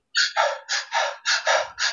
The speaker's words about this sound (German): da machst du also kurz einhecheln und durch Entspannung ausatmen. Und wenn du so hechelst, dann fährst du hoch.